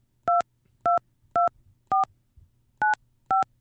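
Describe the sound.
Telephone keypad tones entering a PIN: six short, loud two-pitch beeps, evenly spaced with a slightly longer pause before the fifth, over a faint low hum.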